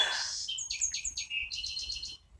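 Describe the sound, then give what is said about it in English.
High, bright bird chirps from singing wrens, with baby wrens fledging, come as a rapid series of short clipped notes, louder at first and then in quicker clustered bursts. “Well, I think those other notes are baby wrens. They must be fledging.”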